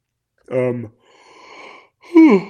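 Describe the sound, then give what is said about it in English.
A yawn: a voiced onset, a long breathy stretch, then a louder voiced sound that falls in pitch. “You start to yawn, can't stop.”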